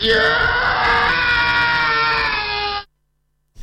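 A man screams, one loud, sustained, high-pitched and strained cry lasting close to three seconds before cutting off into silence.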